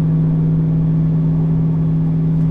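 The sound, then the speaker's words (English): Car engine held at 2,500 rpm while driving uphill, giving a steady, loud droning hum with a constant low tone that does not rise or fall. “Now we're going to go uphill. That's 2,500 going uphill.”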